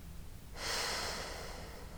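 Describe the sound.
A slow exhale through the nose with the mouth closed: a single soft, steady breathy hiss lasting about a second and a half, heard alone and faint.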